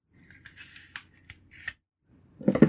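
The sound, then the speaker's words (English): Scissors snip through the tape sealing a taped-up letter in a few quiet, crisp cuts, followed by a louder burst of paper rustling as the letter is handled. “So it's taped together. So let me just cut the tape as instructed.”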